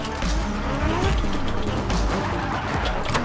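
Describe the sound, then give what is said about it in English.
Drift cars burn rubber on a custom track, their tires skidding and engines roaring in a dense, continuous, loud wash of noise that holds steady throughout. “12 of the world's top drifters burning rubber on a custom track where power and precision are paramount.”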